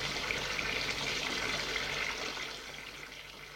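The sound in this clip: Heated bath water running into a tub: a steady, hissing gush that continues without break and eases slightly toward the end, with no voices.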